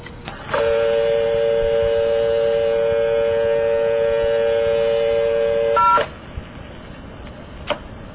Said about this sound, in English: If you dial the number 733 without dialing the 4, you will go into an intercept operator.